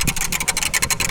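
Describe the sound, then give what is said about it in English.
Three analog idea wheels spin all at once with a rapid, even run of rattling clicks, a fast ratcheting patter that carries on steadily for the whole moment. “Do I spin them all? Oh, spin them all. All at once? All three? Yeah, just spin them all.”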